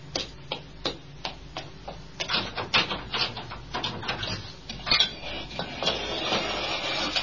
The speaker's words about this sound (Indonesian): Ayo buka bengkelnya, Manto. Sebentar, ku ambil kuncinya.